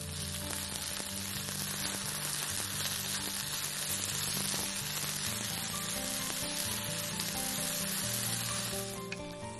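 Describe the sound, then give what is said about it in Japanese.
Potatoes and onions fry in a pan, giving a continuous, even, hissing sizzle that stays at a steady moderate level throughout without pause. “ちょっと蒸し焼きにします。じゃがいもが透き通ってきましたら、”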